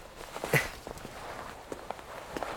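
Footsteps hurrying up a slope: a quick run of soft, light steps, faint and fairly even, with no voices over them.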